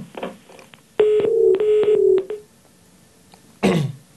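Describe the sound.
Telephone line tones as a radio caller's call drops: a steady beeping tone, briefly broken and lasting over a second, with short coughs or throat-clearing noises before and after.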